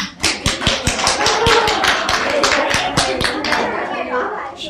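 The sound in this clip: An audience claps loudly on request: many sharp, fairly regular hand claps in a steady rhythm, with voices mixed in throughout.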